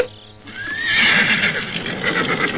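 A horse gives a single long, loud whinny with a quick rise in pitch at the start, heard alone with no voices.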